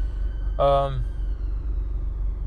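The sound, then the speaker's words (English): A car is driving on the road. A steady, deep engine rumble runs throughout, with a brief spoken voice over it. “I'm driving as I speak.”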